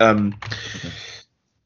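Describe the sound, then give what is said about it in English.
Typing on a computer keyboard: a dense, roughly one-second run of quick clicks that follows a brief voice at the start, then stops cleanly into silence. “Last thing as well, as I type that down, I'll try and do it myself.”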